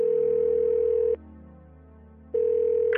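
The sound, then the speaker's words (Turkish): Ringing tone of an outgoing telephone call: a steady mid-pitched tone sounds for about a second, falls silent for just over a second, then sounds again, with a faint high blip at the very end. “Bir gün çocukluk arkadaşlarımdan birini aradım”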